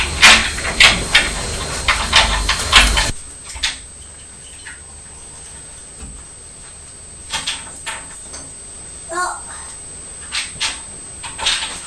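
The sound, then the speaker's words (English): Keys scrape and rattle at a door lock. A burst of busy metallic clicking and jangling lasts about three seconds, then sparse, separate clicks and taps follow at uneven intervals. “Can you not get the key in the lock? No, I am.”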